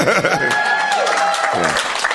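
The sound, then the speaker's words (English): A live audience in North America cheers and claps, with whoops and raised voices over a bed of applause that stays loud throughout. “The usual audience of this podcast are not the sorts of people who would cheer at the name of a person, but we can do it here.”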